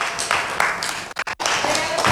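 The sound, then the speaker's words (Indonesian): Audience applause for a performer after a poetry reading at an Indonesian stage event, a loud, continuous rush of clapping broken by a few brief dropouts midway. “Boleh tepuk tangan sekali lagi untuk Bapak Fikar W.A.”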